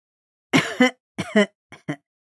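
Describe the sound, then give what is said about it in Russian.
An old man coughs and clears his throat in a few short, rough bursts. They come in pairs with gaps between them, and the last pair is quieter. “услышав, как кашлянул старик, Аннабель”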